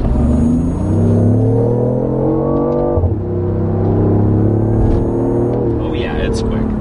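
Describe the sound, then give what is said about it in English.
A BMW sports car engine running in sport mode gives a loud, steady drone with strong harmonic tones. Its pitch drops once partway through, then holds and shifts slightly as it revs. “Okay, we're going to kick this into sport mode now. That's enough of the fission. We'll see what happens when this engine fires to life.”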